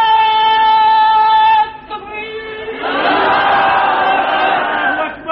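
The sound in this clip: A single voice calls out a slogan, then breaks off briefly before a large crowd answers with a loud, roaring shout that holds to the end.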